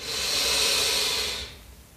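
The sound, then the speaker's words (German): A deep breath taken during a guided meditation: one long, airy hiss that holds steady for over a second, then fades away, heard alone without talk. “Und zum Abschluss nimm noch einen tiefen Atemzug”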